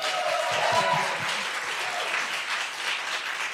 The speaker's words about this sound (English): Let's give it up for Melanie.